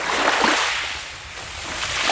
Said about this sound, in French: Capo Orlando, une promenade le long de la mer. Mais en 50 ans, la plage a perdu 80 mètres de profondeur.